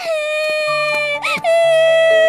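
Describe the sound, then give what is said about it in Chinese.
A child cries in a sustained, high, wailing tone with a brief wavering break midway, over a low, steady background tone. “小朋友，别哭了”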